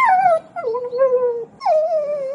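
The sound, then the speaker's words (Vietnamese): A large, hostile dog lying low to the ground gives three drawn-out whining, howl-like cries. Each cry is tonal and loud and slides downward in pitch, with short gaps between them. “Chó bự tuổi thân nằm rạp trên đất, đôi mắt tròn chứa đầy địch ý, nhìn chăm chăm Vệ Liễm.”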